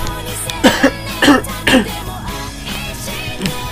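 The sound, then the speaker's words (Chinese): A few harsh, rough coughs from a person with a cold and sore throat, loud bursts in quick succession, with a steady low background noise underneath. “不好意思啊，大家，我要稍微先咳嗽一下，”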